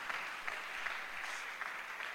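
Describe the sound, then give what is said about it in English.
A church audience claps for Jesus, a dense, even wash of many hands that stays faint and steady throughout with no voices standing out. “Are you clapping for Jesus? Are you clapping for Jesus?”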